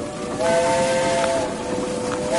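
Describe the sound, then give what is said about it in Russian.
A local train's whistle sounds as a steady, sustained tone over a broad hiss, holding loud and even throughout. “Прошел местный поезд.”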